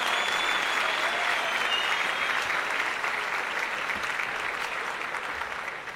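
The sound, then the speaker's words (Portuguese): Loud audience applause for a stand-up comedian, dense and even clapping that holds steady throughout and softens a little toward the end. “Uma salva de palmas para Alex Paim, senhoras e senhores. Eu sei, o câncer ficou meio assim. Ih, vamos aplaudir isso.”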